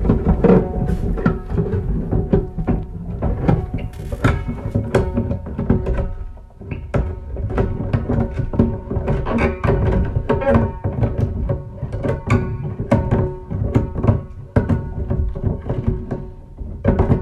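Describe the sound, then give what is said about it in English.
A roof being torn off during a roof replacement, heard from an office right below, produces dense, constant dull thuds, knocks and scraping bangs in an irregular, busy rhythm that stays loud throughout. “This is the sound of my roof being torn off right above my head as I sit in my office where I record this podcast.”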